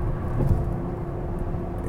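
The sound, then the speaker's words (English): A car being driven gives a low, steady engine and road rumble, continuous and moderate in level, with no talk. “excuse me while I'm driving, don't want to hit anybody”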